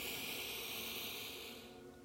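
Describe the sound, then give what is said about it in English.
A slow, deep breath drawn in through the nose makes a soft, steady airy hiss that stays even and then tapers off at the end, with no talking. “let's just take a deep breath here in through the nose”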